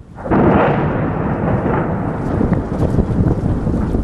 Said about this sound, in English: the Syrian military and its allies released this footage of bombing in eastern Aleppo.